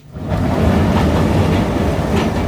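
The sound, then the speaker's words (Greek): A metro train runs through Athens with a loud, steady rumble and rattling wheels that swells in over the first half second, then holds evenly to the end. “Τσεφτσουφ, κλίγκλεν, κλίγκλεν. Επόμενος σταθμός, Σύνταγμα.”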